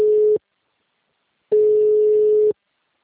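Telephone busy signal after a dropped call: a loud, steady single-pitched tone, one burst cut short at the start, then a second full burst about a second long after a gap of silence.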